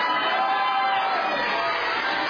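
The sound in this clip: A crowd cheers for a team during a points-scoring team game, a loud continuous roar of many voices filling the whole clip with no pauses.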